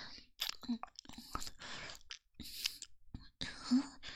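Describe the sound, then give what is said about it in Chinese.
Wet licking and mouth sounds on a freshly grilled sausage, a few soft intermittent smacks and slurps separated by short pauses, with quiet breathy whispering mixed in. “像是在舔棒棒。人家就是在舔棒棒啊，刚刚做好的这根烤肠可好吃了。”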